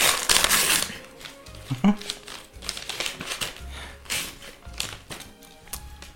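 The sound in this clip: Wrapping paper crinkling and tearing as a wrapped gift is opened: irregular bursts of crackling rustle, loudest at the start, with voices talking amid the noise.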